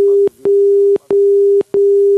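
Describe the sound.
A telephone busy tone follows a hung-up call: a steady single-pitch beep repeats in even pulses separated by short silent gaps, heard on its own.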